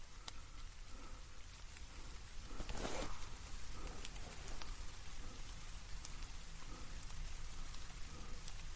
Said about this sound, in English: Are you talking about the rain? That's rain, not tears.